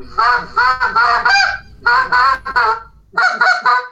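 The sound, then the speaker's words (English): A hand-blown goose call imitates a goose's feed murmur: rapid, nasal honking notes come in three tight bursts separated by brief gaps, loud and alone with no talking. “just murmur at him with a little cluck in it at the end. That's all you really need to do on a goose.”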